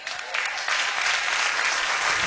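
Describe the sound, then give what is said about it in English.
An audience claps during a sermon after a prayer in Jesus' name, dense, lively applause that swells slightly after the first moments and then stays steady and loud throughout. “When they didn't clap like you're clapping, it was kind of silent inside.”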